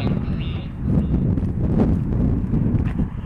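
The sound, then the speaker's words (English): Southerly wind blowing outdoors on a mild winter morning, a steady low rumble with gusts buffeting the microphone throughout. “the southerly wind. The southerly wind is upon us this morning.”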